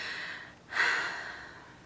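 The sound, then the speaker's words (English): A deep breath taken in a calming, centering moment: a soft airy rush that swells sharply after a brief lull, then slowly tapers away, quiet and alone without speech. “I want to bring us all back to center by taking a deep breath.”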